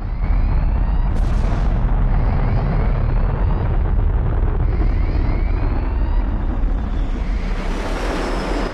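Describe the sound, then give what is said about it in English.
A missile explosion aboard a massive warship that is left burning: a loud, unbroken, deep roaring rumble with dense crackling noise, a sharp hissing burst early on and a brighter hiss building toward the end. “A missile tears through the control tower while another explodes below deck, leaving the massive ship stricken and aflame.”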